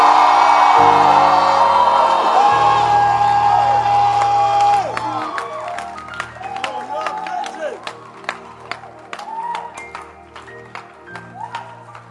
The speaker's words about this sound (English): Can I hear someone scream?